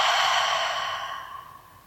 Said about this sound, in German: Atme noch einmal tief und vollständig ein und aus